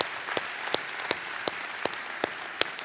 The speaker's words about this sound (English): come on, church, let's put our hands together. Welcome each other one more time.